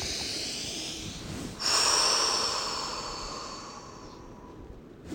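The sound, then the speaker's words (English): A long, deep breath, rushing and breathy. It swells suddenly partway through, then tapers off slowly over several seconds. “Let's take a deep breath over that.”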